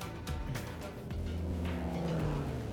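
Steady engine and road drone inside a Subaru car, a dense low rumble with a hissy upper layer that holds at an even level for a few seconds with no voices.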